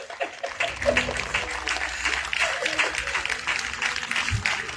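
A church audience claps during a worship service to acclaim a visiting pastor, producing steady, moderately loud clapping with a low rumble underneath.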